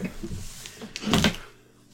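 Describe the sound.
Sharpie markers slammed onto the ground: one short, fairly loud plastic clatter midway, with quieter rustling before it.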